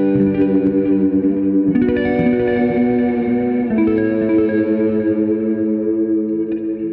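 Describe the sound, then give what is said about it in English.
A clean guitar tone through a delay effect, with sustained ringing notes that shift a few times, each trailing smeared echoing repeats that blur into the next, steady and moderately loud throughout. “There's not, this is my clean sound with a delay.”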